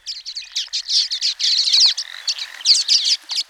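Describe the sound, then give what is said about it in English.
Common waxbill song from a flock of tiny birds clinging to tall grass stalks: rapid, high-pitched chirping phrases run almost without a break, with bright repeated notes and short gaps between bursts. “there's a good chance that some of them are common waxbills, especially if you hear their song and it sounds like this.”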